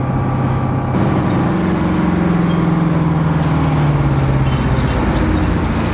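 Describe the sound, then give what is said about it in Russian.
A truck pulling up and stopping beside a roadside deli, its loud, steady engine drone rumbling on while a low tone slowly sinks in pitch. “Грузовик останавливается у дома с вывеской Roses Deli, Ice Cold Beer, Wine, Draft Beer, Groceries.”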